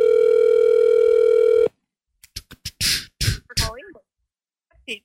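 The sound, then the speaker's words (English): Telephone dial tone humming steadily for under two seconds as a call is placed, then cut off and followed by a few short clicks and bursts and brief voice-like sounds. “So I'm going to call and ask for Murray.”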